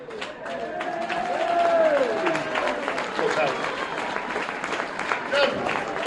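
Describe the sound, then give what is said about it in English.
An audience at a sports club gathering gives a round of applause for a long-serving behind-the-scenes member, with dense, loud clapping that is sustained for about six seconds and mixed with shouts. “we just have a massive round of applause for John England.”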